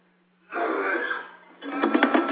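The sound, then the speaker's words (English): A man breathes in a labored way during a spirit possession ritual in a temple, his body resisting the spirit. Two long, harsh, rasping breaths follow one another, the second grittier and more broken. “struggles to breathe as his body resists the spirit's arrival.”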